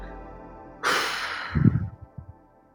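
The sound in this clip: A deep breath drawn in with a loud, airy rush during a guided breathing exercise, followed by a few softer, breathy pulses as the air is let out.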